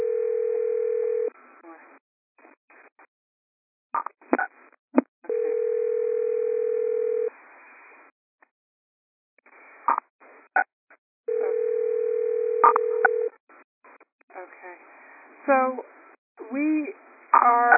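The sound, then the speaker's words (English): Steady telephone tone on a conference call line, sounding three times for over a second each, with short bursts of talk and line noise between. “So, whoever has a phone ringing, if you could star 6”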